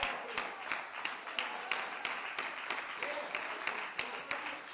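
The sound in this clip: Faint audience clapping during a church service, a run of sharp, fairly regular claps repeating through the whole stretch at low volume.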